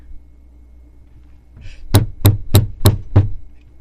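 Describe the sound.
Banging on a table: five heavy, evenly spaced thuds in a quick rhythm, loud against near silence, with a faint rustle just before the first blow.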